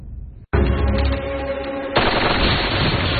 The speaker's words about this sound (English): One of the fake FBI troopers shoots out a power line, plunging the house into darkness.